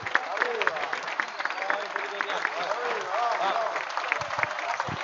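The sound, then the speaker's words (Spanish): Audience applause for a theatre group at an evening vigil event, dense and steady for about five seconds, with shouts and cheering voices rising through the clapping. “Fuerte el aplauso para ellos. ¡Fuerte!”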